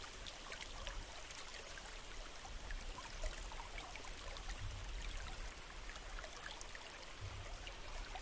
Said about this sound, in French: Concentrez toute votre attention sur les sons de l'eau, purs, simples, envoûtants.